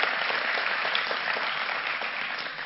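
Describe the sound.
An audience claps steadily to welcome a guest, a mixed media artist, at a church sermon. The dense applause holds an even level for the whole stretch and fades slightly at the end.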